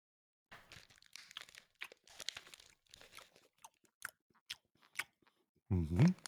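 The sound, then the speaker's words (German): A Piemont cherry liqueur chocolate, dunked in a shot glass, is bitten into. Light crinkles and taps come under talk, then one loud, crunchy bite at the end. “Die Piemont-Kirsche mal ordentlich ins Schnapsgläschen getunkt, ey. Ich beiß nur mal ab.”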